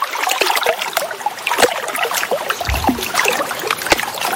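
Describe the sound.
River water of the Ouvèze flows steadily at the riverbank in Courthézon, a continuous rushing and trickling wash dotted with small splashes and clicks.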